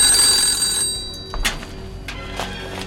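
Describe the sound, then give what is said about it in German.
A telephone bell trills in a bright, high ring for under a second, then cuts off. A few sharp clicks and knocks follow in the quiet. “klingelte das Telefon.”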